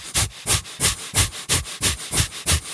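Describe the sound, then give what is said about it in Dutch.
Breath of fire, a rapid breathing exercise through the nose: eight sharp, forceful nasal puffs in a quick, even rhythm, loud and alone. “Nou dan start je met de breath of fire.”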